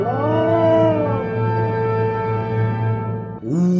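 A dog howls in a long, sustained, mournful tone, loud and alone. The pitch wavers slightly before a second howl begins at a higher pitch near the end.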